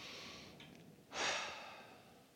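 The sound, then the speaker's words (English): A deep, audible breath taken during an at-home church session: a faint breathy hiss, then a loud, rushing breath midway that slowly fades, with no talking. “We are here on week number 2 of Church at Home, and I don't know about you, but I feel like I need to take a deep breath. And so let's just do that together as we begin this one. Let's breathe in.”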